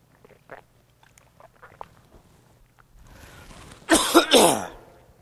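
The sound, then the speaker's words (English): Coughing and throat clearing after a small piece of communion bread went down the wrong pipe: faint scattered rustles, then a rising rasp that breaks into two loud, harsh, closely spaced bursts. “Excuse me, I had a small piece of communion bread go down the wrong pipe, and I knew that was going to be a problem.”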